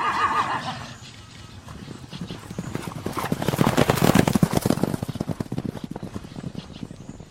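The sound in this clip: Horse hooves clip-clop in a rapid galloping rhythm as the horse runs off, with a whinny near the start. The many hoofbeats swell to a loud peak midway, then continue more quietly toward the end.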